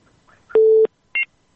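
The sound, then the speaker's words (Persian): Telephone tones after a call-in listener's line drops: two loud electronic beeps heard alone, a steady tone of about a third of a second followed by a shorter, higher beep. “بله خب تماسی شنونده ما فکر کنم قطع شد.”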